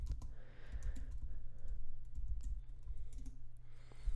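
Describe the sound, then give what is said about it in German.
Commands are typed on a computer keyboard into a terminal: many quick, light key clicks in irregular bursts over a steady low hum. “So, starten oder öffnen wir erstmal das Terminal und navigieren in den Ordner, wo wir ein Cordova-Projekt einfach mal erstellen lassen.”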